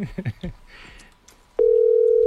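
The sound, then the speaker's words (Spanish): Telephone ringback tone on a call that goes unanswered: after a few moments of talk, a steady, loud, mid-pitched electronic tone starts abruptly and holds unbroken to the end. “Igual está esperando una llamada de algo relacionado con la hipoteca y no quiere cogerlo. Ostras, que no nos coge.”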